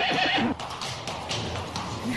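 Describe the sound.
Horses neigh in loud, shrill whinnies over a steady texture of clip-clopping hooves, with the sound continuing throughout.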